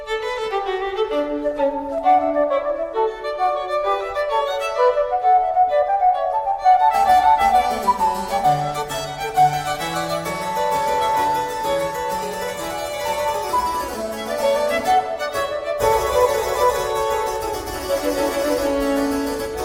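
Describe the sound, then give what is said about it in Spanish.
Baroque concerto allegro in which violins and a transverse flute trade bright, lively lines before a harpsichord joins in, giving a fuller, steady instrumental texture with no voices. “Nosotros nos vamos a quedar con el Allegro del concierto de Brandenburgo número 5, que comienza con un intercambio musical entre violines y flauta travesera, pero pronto se une el clavecín, el clave con su inconfundible sonido.”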